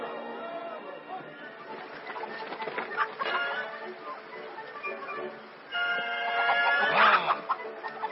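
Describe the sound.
Hens clucking around a rooster, a steady, busy chatter of fowl calls with a louder burst of clucking near the end.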